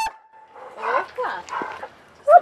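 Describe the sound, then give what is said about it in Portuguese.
A dog at a family home gives a single sharp bark at the very end, after a stretch of indistinct voice-like sounds. “Marcamos a entrevista na casa dos pais dele. Fomos recebidas primeiro por um cachorro”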